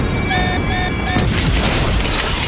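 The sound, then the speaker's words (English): Computers explode in an action scene: steady electronic tones give way to a loud, sudden burst, followed by a sustained crackling, rumbling blast. “Screens blow up. Driver shoots a SWAT member, limps away, Blade creeps on beams overhead, the computers explode.”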